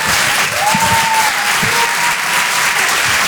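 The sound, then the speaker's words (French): A comedy club audience claps and cheers to welcome a comedian onto the stage. The applause is dense and loud, and a shrill whistle rings out briefly over it. “Faites du bruit s'il vous plaît pour certes Mathurin.”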